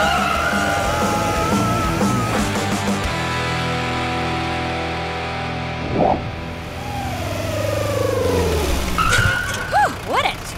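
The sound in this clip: A car driving fast and skidding: engine noise rises and falls in pitch, with short tire-squeal bursts near the end.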